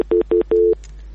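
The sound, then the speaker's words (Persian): Telephone tones sound after a call is cut off: three steady electronic beeps at one pitch, the third noticeably longer, followed by near silence with a low hum. “متاسفانه تماس ما با برادر ما قطع شد، نمیفهم که مشکل چی بوده.”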